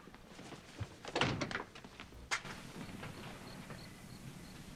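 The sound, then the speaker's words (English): A door is shut quickly, giving dull thunks: a cluster of knocks followed by one sharper knock, then a faint background hiss. “Teresa quickly shuts the door behind him”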